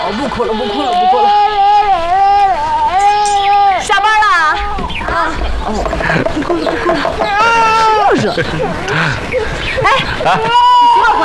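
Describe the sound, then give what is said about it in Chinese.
A baby cries in high, wavering wails that rise and fall in several bursts, mixed with an adult voice talking soothingly over it. “不哭了，不哭了，不哭了，不哭了，不哭了。”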